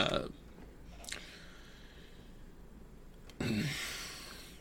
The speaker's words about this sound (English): after the sound of literally the gnashing of teeth, and this sort of bone crunching, crackly noise